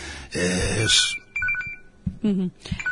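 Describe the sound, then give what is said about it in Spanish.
A telephone rings during a radio interview, brief electronic ringing tones breaking in between people talking. “Tenemos ahí una llamada, pero bueno, no pasa nada, que la vamos a neutralizar.”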